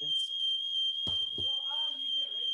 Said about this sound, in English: Fire alarm off.